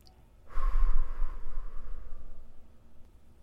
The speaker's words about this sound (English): Exhale through the mouth at 2, 3, 4, 5, 6.